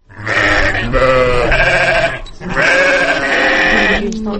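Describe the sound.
Sheep bleat in a snowy winter village where livestock are kept near the house and fed hay: several loud, wavering bleats in two long bursts separated by a brief pause, with no talking.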